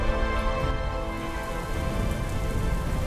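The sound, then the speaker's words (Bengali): Heavy rain pours in a steady, dense hiss and patter that stays loud and even throughout, with no pauses. “ভীষণ বৃষ্টি শুরু হলো তার সাথে বজ্রপাত”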